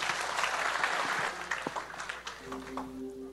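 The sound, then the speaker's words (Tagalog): Faint audience applause at a church service, scattered clapping that thins out toward the end as a steady held tone comes in. “Palakpakan po natin, Panginoon, tayo tayong lahat.”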